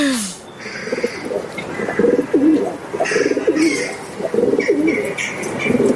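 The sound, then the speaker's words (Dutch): A pigeon coos inside a chimney, repeating low, throaty, rolling coos in a steady rhythmic series. “we luisteren naar een duif die door de schoorsteen koert.”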